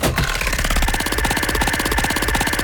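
A prize wheel spins in a game, giving off rapid, steady clicking as the pointer ticks over the pegs, a continuous dense rattle that lasts throughout.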